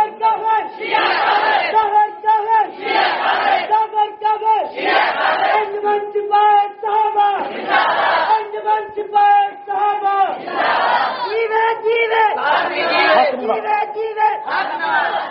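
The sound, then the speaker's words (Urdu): A crowd chants the slogan "Jiye Jiye Haq Nawaz" in unison, many voices repeating the rhythmic phrase again and again at a loud, steady level, each repetition swelling and easing in a continuous cycle. “جیوے جیوے حق نواز، یہی نعرہ ہے، جیوے جیوے اور کسی کے لیے نہیں۔”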